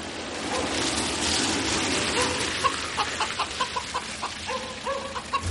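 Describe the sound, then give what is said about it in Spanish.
Chickens clucking at a henhouse on a country farm: a string of short, repeated clucks starts partway through, over a steady background hiss. “Un hombre retira un plástico de un gallinero en una casa de campo.”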